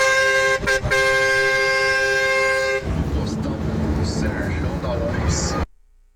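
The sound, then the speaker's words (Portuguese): A semi-truck's horn honks out in the bush: a loud, steady, tonal blast of nearly three seconds with two brief dips, then gives way to a rough, rumbling vehicle noise. “Ó, o outro espanta a onça na buzina.”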